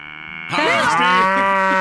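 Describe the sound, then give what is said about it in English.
A cow moos during a sound-guessing game: a single long, loud, drawn-out moo with a wavering tone. It starts quieter, then swells sharply about a quarter of the way in and holds to the end. “That would be a cow.”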